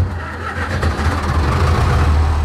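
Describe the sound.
The engine of a 1962 historic tractor runs at a vintage tractor exhibition after being started, giving a steady, low, rumbling drone with constant mechanical clatter. It stays loud throughout with no voices.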